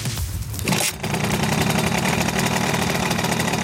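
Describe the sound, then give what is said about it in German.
A Simson moped engine runs with a steady, dense, rattling two-stroke drone. The sound is continuous and loud throughout, with a brief dip near the start. “Das ist der typische Simson-Sound”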